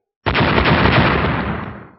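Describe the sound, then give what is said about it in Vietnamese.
A huge explosion in the sky bursts out suddenly as a loud blast, then rolls on as a dense roar that fades over about two seconds. “Trên bầu trời nổ vang âm thanh cực lớn”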